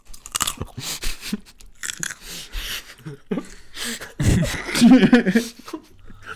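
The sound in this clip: Crunchy chewing of an organic carrot: loud, crisp bites and grinding crunches come in an uneven series and grow heaviest and densest in the second half.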